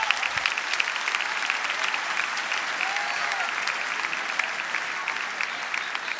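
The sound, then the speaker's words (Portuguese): A church audience applauds during a worship service. The clapping is steady and continuous, a moderately faint, even patter of many hands that lasts the whole stretch. “se tu és o Cordeiro, você pode aplaudir a Ele.”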